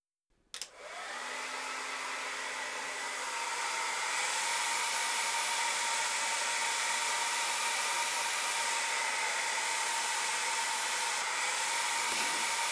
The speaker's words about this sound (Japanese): じゃあお先に髪乾かすね。